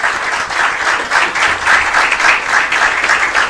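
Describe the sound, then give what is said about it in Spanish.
A church audience at a Spanish-language service applauds for first-time visitors with a steady, dense, loud clapping that fills the whole stretch without a break. “Dame un aplauso al Señor por ellos.”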